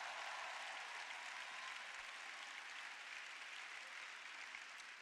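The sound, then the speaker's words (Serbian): Faint applause from an audience at a religious talk, a soft, unbroken wash of clapping that holds a level hiss-like texture throughout. “Ma dajte Bogu jedan veliki aplauz.”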